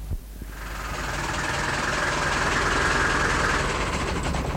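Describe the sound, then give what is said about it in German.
A lorry's engine idles on a Berlin street closed to lorries. After a brief quieter start, the dense, rumbling drone rises and then holds steady and even to the end, with no talking. “Na Mann, haben Sie denn nicht gesehen, dass diese Straße für Lastkraftwagen gesperrt ist?”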